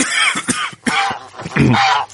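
A coughing fit: several harsh, raspy coughs in quick succession, loud and uneven, with short gaps between bursts.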